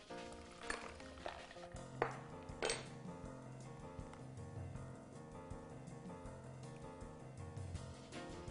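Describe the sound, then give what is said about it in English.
A spoon stirs a homemade mocktail in a glass, giving a few bright clinks and scrapes against the glass over a steady background. “And Let's give this little mocktail a stir. And try it out.”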